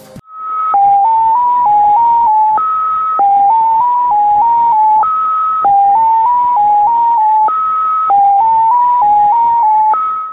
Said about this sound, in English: And this X07 has no break, and instead of the break, you have a long dash, and it sounds like this.